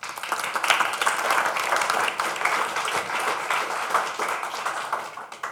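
Audience applause welcoming a guest, loud, dense clapping from many hands that stays full and even throughout with small fluctuations.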